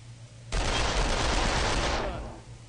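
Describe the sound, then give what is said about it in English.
Automatic gunfire in the first-person shooter video game Far Cry 2, a loud, dense rattling burst that starts abruptly, holds for about a second and a half, then fades out. “Far Cry 2 did it with the map. You can hold the map up and shoot him! Shoot him!”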